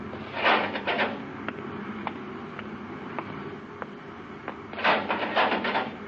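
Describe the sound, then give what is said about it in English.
The mechanical inner hatch of a spaceship observatory opens: a whirring, hissing burst, then a run of evenly spaced sharp clicks, then a second whirring burst. “Open the inner hatch, Happy.”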